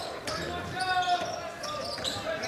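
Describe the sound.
A basketball is dribbled during a game, its bouncing steady and continuous under loud crowd noise and voices.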